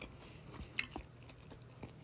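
Chewing of potato and bacon, the potato soft rather than coarse: faint, moist mastication with a few sharper crunchy bites scattered through, no talk.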